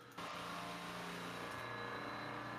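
An engine revving high at a test facility gives a faint, sustained drone with a steady whining tone, setting in abruptly and holding at a fairly constant pitch throughout, with no talk.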